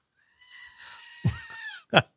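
A goat bleats in a wavering, harmonic cry that lasts about a second and a half, with a short, sharp burst of sound at the end.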